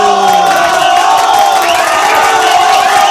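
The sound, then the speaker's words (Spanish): Loud crowd cheering and shouting at a celebration, many voices raised together in a continuous roar with sustained hollered tones and whoops running throughout. “¡Muchas felicidades! ¡Aplauso y bravo, bravo, bravo, bravo!”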